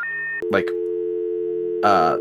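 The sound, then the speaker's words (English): A telephone busy tone sounds after a phone line cuts off: a single steady, unbroken electronic tone, briefly overlapped by a couple of short voice-like bursts. “I think the phone just turns off.”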